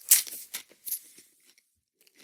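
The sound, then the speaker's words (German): Crunching of dry, slightly stale crispbread being eaten: several sharp, crackly bites and chews, loud at the start and fading into smaller, sparse crunches toward the end. “Knäckebrot während einer laufenden Aufnahme essen.”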